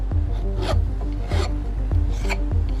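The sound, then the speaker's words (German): A goldsmith at her workbench files a ring by hand, making a steady metallic rasping in repeated strokes with a short pause between each. “Goldschmiedin Caro, die Inhaberin von Goldzauber, sitzt an ihrer Werkbank und feilt an einem Ring.”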